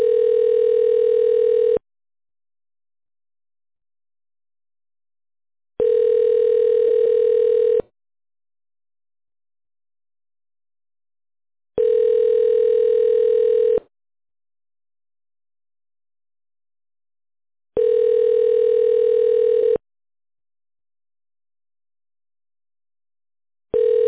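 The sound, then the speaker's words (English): Ringback tone on a forwarded telephone call: four long, steady, mid-pitched tones of about two seconds each, separated by equal silent gaps, with a fifth tone just starting at the end. “For you to claim your prize, we will now forward your call to Pete Hall”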